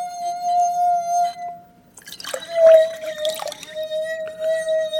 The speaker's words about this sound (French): Donc là maintenant, Il y a de l'eau dans le verre. On plonge le verre dans le seau. Et là, j'obtiens quelque chose qui était plus grave que tout à l'heure.